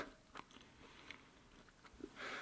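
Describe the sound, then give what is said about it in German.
Crunchy chewing and biting of food with a chocolate-flavoured dip, a few soft crunches spread out, then a louder, denser crunch near the end, fairly faint with no talk. “das tut mir leid, dass ich im Podcast essen muss, aber. Äh, das muss man Leider. kommt nicht drum rum.”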